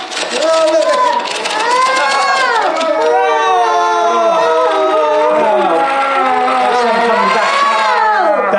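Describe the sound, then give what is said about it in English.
A sound effect played backwards: a dense, loud wash of warbling, voice-like tones that swell and slide continuously for about eight seconds. “Sound effect reverse. Oh, you wouldn't really notice, but it is.”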